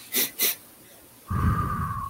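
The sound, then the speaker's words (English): Two short, quick inhaled breaths in rapid succession, taken as an energizing breathing exercise, then a steady droning tone with a low rumble beneath it. “So I can kick some energy and a little bit of adrenaline by inhaling, you know, a couple of times. And then I exhale. So these are short, quick breaths. Quick, short, inhale.”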